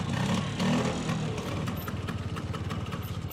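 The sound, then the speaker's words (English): A scooter's small engine drones as it rides along, a steady low buzzing hum with faint rattling, its beat pulsing slightly toward the end. “He passes Ajay on his scooter.”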